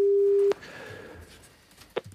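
Telephone tone heard while calling a number: a single steady tone lasting about half a second, then quiet line noise and a brief faint blip near the end.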